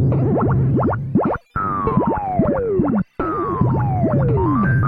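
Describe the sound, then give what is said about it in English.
Springs bouncing across a platform in a video game make cartoonish boing sounds, many wobbly twangs and long falling pitch sweeps that repeat loudly, with two brief gaps of silence. “No, the real threat in this stage is the springs that bounce across the top of the platform and fall to the bottom of the screen.”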